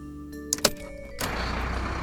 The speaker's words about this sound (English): We need to start the engine. Have you got your keys? Give them a shake. Brilliant. Now put them in the ignition next to the steering wheel and give them a twist.